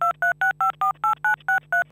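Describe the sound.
Telephone keypad touch tones sounding as a number is dialed after a voicemail-style prompt: nine evenly spaced two-note beeps in a quick, steady rhythm over a low constant hum.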